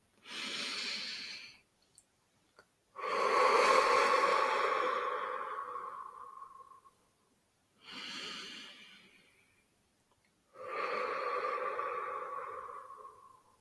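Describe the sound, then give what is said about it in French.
Deep belly breathing, four long, slow breaths at an unhurried pace, each a soft airy rush that swells and fades, with silent pauses between them and no talk. “Quelques respirations avec vous.”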